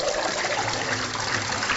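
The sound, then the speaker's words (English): Steady running water rinsing sand off 18 pounds of dandelion greens in a sink, a continuous, even splashing and trickling rush with no breaks. “all that noise is me rinsing the 18 pounds of sand off of the dandelion greens, giving them another soak.”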